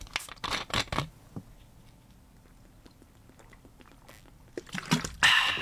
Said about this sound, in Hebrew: בואו נפתח בקבוק.